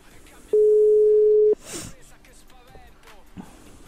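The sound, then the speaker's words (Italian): Telephone ringing tone while calling someone: a single steady mid-pitched tone lasting about a second, followed by a short breathy noise and then voices talking. “Adesso stiamo chiamando una compagna di Azione Antifascista Roma Est, Marianna”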